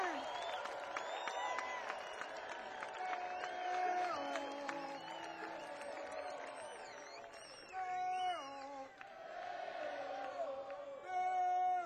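An audience cheers, whoops and applauds to welcome a bluegrass band onstage. The crowd noise is dense and sustained, with shouted calls and shrill whoops rising through the whole stretch.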